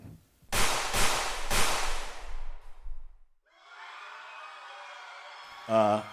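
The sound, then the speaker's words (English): Three sharp gunshot-like cracks ring out at a comedy awards show, each followed by a decaying rumble. A steady hiss follows, and a brief voice is heard at the end. “Looks like we have somebody shooting people back there.”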